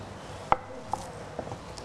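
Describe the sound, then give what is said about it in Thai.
Knife finely slicing rolled kaffir lime leaves and culantro on a board: a few crisp, sharp cuts spaced apart, the first the loudest, against a quiet background with no talk. “ซอยให้ละเอียดเล็กเราจะมีใบมะกรูดซอยแล้วก็จะมีผักชีฝรั่งนะคะซอย”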